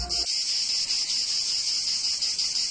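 A cicada's song: a dense, continuous high-pitched buzzing drone, steady and moderately loud, with no other sounds after a brief low thump at the start.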